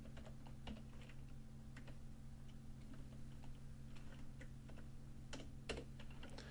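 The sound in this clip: Typing on a computer keyboard while entering a database query: faint, irregular key clicks at an uneven pace over a low steady hum, with a few sharper taps standing out.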